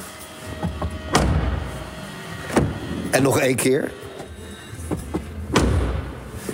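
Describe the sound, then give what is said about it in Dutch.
A Mercedes-Benz car door is slammed shut again and again, giving a few heavy, dull thuds spaced apart, with people talking between the slams. “Wat gaan we voor geluid van deze? Zal ik het portier gewoon eens dichtgooien?”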